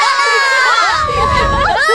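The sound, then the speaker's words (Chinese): Children cheer and shout together as the red team celebrates scoring a football goal, loud overlapping excited cries that run through the whole clip. “应声入网，红队一片欢呼。 进球了！我们进球了！”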